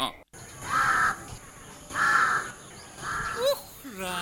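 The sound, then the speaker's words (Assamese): A crow caws in the early morning: three harsh, drawn-out calls with pauses between them, then briefer sweeping notes near the end. “এই কাউৰী মখাজে আৰু উপজি পুৱাই উঠি ৰেৱাজ কৰেহে কৰে, মাতৰ চন হ'ল সেয়া কা কা।”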